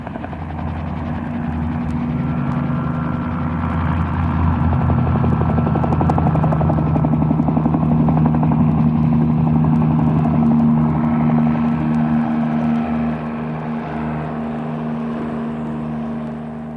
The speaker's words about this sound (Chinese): 飞机先是剧烈的摇晃和摆动，然后开始慢慢滑行，越来越快，越来越快，终于离开地面，冲向天空。